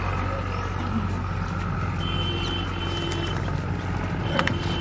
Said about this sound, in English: Watch out for the vehicles coming through too.